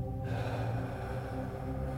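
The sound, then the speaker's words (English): A deep breath drawn in through the nose during a guided breathing exercise, one long, steady inhale held at an even level for about two seconds. “Take a breath in as you do. In through the nose.”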